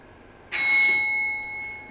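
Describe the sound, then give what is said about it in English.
A bell in a gallery, set off by Bluetooth from a purpose-built box with a small speaker, rings once with a bright, clear ding that sustains and slowly fades. “you get an actual bell in the gallery. So that's a box there that we've built that has a little speaker on it. Ring Bluetooth transmission makes the bell ring.”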